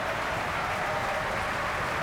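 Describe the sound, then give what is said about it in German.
Audience applause in the Festspielhaus at the curtain call of the opera Rienzi, a thick, continuous patter of clapping that stays even in strength from start to finish. “Er bekommt großen Applaus hier im Festspielhaus. Und auch er bedankt sich beim Orchester.”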